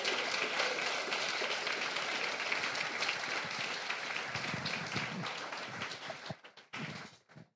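An audience bursts into applause to welcome Lama Surya Das, a dense, sustained wash of clapping that thins out and fades near the end.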